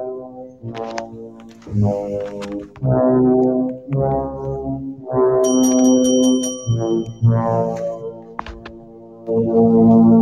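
Opening theme music of the film The Shining: loud, low, droning brass-like tones in long swelling phrases, with a brief cluster of shrill high tones in the middle.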